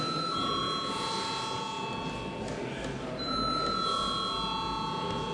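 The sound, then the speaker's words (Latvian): A parliamentary bell in the Latvian parliament rings to call members to a vote: a steady, shrill electric ringing that holds for several seconds, breaks off briefly midway, then resumes at the same level. “Lūdzu, zvanu.”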